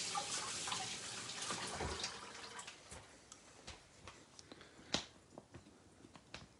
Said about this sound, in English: So I'm just rinsing it off here.